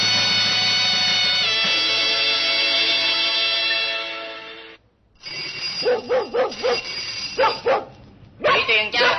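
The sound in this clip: A dog barking excitedly to greet a familiar visitor at the door, many quick, sharp barks in bursts that begin after a long held musical tone cuts off.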